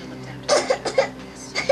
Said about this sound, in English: A doctor wearing a white coat places a stethoscope on a child's back. Okay, hon, one more cough.